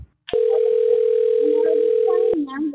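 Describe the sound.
Telephone tone from an incoming call: a single loud, steady, mid-pitched tone lasting about two seconds, followed briefly by a voice as it cuts off.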